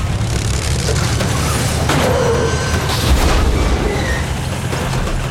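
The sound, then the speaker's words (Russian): A tank rolls over and crushes a truck: a loud, dense, continuous rumbling roar with crunching noise throughout, and no voices. “Но вот танк наезжает на грузовик.”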